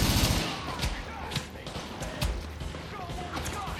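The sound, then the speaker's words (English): Rapid gunfire bursts in a video game shooter, dense and loud, with sharp repeated cracks over a constant thumping bed and people talking throughout. “We're getting shot at. I think we're getting shot. Yeah. I think maybe we should shoot these guys down. God, the recoil on this thing.”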